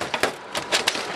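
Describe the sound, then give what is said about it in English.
Hammer blows break plastic casing off a PC monitor during e-waste deconstruction: several sharp, splintering cracks in an uneven rhythm, with brittle crunching between the louder hits. “That's the sound of an EPC employee using a hammer to deconstruct a PC monitor, breaking off plastic to get to the guts of it”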